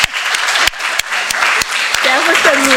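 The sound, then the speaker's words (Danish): Steady applause from an audience in a council hall, honouring the municipal director's tenth anniversary. Sharp claps run throughout, and a voice speaks over the clapping near the end. “ja, lad os bare give Henrik en hånd.”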